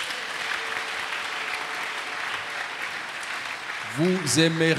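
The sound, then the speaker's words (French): A church audience applauds in a steady, even wash of clapping for about four seconds. A voice then speaks loudly over the end of the applause. “Acclamez le Seigneur.”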